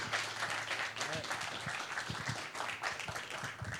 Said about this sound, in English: Put your hands together as we welcome Hubert.